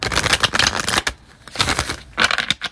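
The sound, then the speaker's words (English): Tarot cards are shuffled and drawn: crisp papery riffling in several bursts with short pauses between them, moderately loud and without talk. “So let's just draw cards.”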